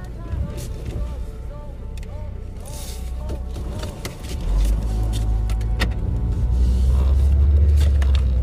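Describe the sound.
Car driving, with a steady low engine and road rumble that grows louder about halfway through, while someone talks over it.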